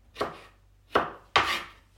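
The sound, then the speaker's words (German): Knife chopping pickled gherkins into small pieces on a board, three crisp, separate chops spaced unevenly, each with a sharp attack and short decay, heard alone without voices. “Essiggurken schneide ich einmal längs durch. Dann habe ich die zwei Hälften da liegen, die schneide ich dann noch einmal durch längs. Und dann alles quer, dass es halt kleine Stücke werden.”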